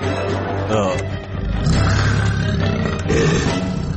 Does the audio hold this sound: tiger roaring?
yes